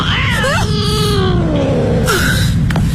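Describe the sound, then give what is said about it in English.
A cat meows in drawn-out, wavering cries: a short descending wail leads into a long sustained call, then a brief higher cry, all over a steady low background rumble. “It's okay. It's just a cat. Nothing to worry about.”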